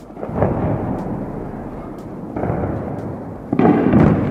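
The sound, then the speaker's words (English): Phosphorus bombs exploding over Douma in Eastern Ghouta: deep, rolling booms with long rumbling tails, a few of them in succession, the last one sharper and louder. “That effect was caused by phosphorus bombs being launched by the Assad government. The bombing of Bashar Assad forces Douma city, Eastern Ghouta.”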